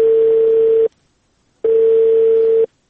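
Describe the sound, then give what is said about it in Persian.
Telephone tone after a call is cut off: two steady, loud beeps of about a second each, separated by a short silence, with no voices. “بله سر تلفون قطع شد.”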